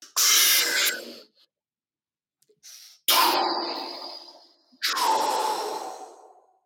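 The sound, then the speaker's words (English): A deep breath: a few long, airy breath sounds, loud and breathy with soft hissing, separated by near silence and a couple of tiny clicks, with no talk. “it would be an honor to do one deep breath with you now. It would be an honor to do a big deep breath with you.”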